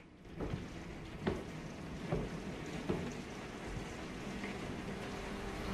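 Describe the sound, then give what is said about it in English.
Rain pounds on a large domed skylight in a dense, even hiss of drops, with a few heavier thuds standing out, all fairly quiet throughout. “she stops and looks up at the rain pounding down on a large domed skylight above her.”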